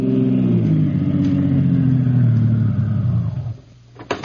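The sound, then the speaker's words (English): Taxi cab engine humming steadily at a low, mid-pitched drone as it drives, then easing down and fading as the cab pulls up and stops, followed by a couple of brief clicks. “Steve is on his way to the south side of Big Town in the cab of Harry the Hack and pulls up in front of an all-night diner in the warehouse district.”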